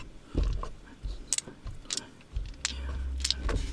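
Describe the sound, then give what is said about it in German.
Seven dice rolling during a tabletop role-playing game: a scattered run of sharp, bright clicks and clattering taps in an uneven rhythm, fairly quiet, over a low rumble. “Ich hab nur die 7 Würfel gehört”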